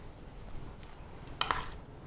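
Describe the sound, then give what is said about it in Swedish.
Dishes and cutlery clink as a kitchen is cleared while a lasagne bakes in the oven: a few brief, light clatters of crockery and utensils, fairly quiet. “Sen är det bara att vänta och städa undan medan det hela bakas i ugnen.”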